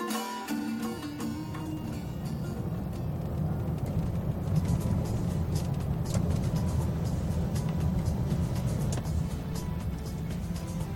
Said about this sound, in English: I decided to drive my own car to reach this historical monument.